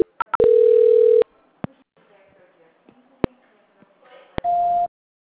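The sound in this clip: Telephone line tones while a call is transferred: a few quick clicks and beeps, then a steady tone of under a second. Faint line noise and scattered clicks follow, and a short, higher tone sounds near the end.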